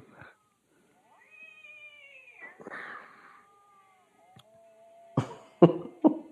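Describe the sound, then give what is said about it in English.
A cat meows in a few drawn-out, wavering tonal cries, followed by a few short, harsher bursts near the end. The sounds are fairly faint, separated by quiet gaps, and no one speaks. “Oh, she was rubbing her back up against the ladder. Because she's a cat.”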